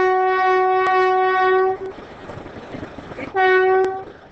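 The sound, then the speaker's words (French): An urban passenger train leaves a station in Kinshasa's city centre. A loud, steady horn blast lasts nearly two seconds, then comes a stretch of rumbling rail noise and a second, shorter horn blast. “Le voyage retour commence. Le train quitte le centre-ville.”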